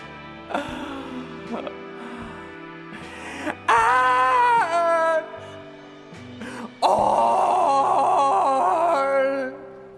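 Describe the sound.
Failed karaoke singing from a video game's hotel bar scene: a male voice groans and moans tunelessly through several drawn-out, wavering phrases, with louder strained stretches between quieter ones.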